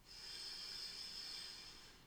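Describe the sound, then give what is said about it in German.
A person takes a deep inhale through the nose during a guided relaxation meditation. It is a soft, steady airy hiss that swells and then slowly fades over about two seconds, with no talking. “Dafür atme tief durch die Nase ein”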